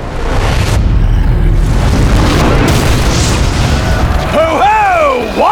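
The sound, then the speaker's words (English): A catapult launching a ball of flaming pitch: a loud, sustained rumbling boom with heavy noise. Near the end, whistling tones swoop down and back up. “Suddenly, a streaking line of fire cut across the sky, a ball of flaming pitch soaring for Weedy Meadow. Ah! Powdy catapult!”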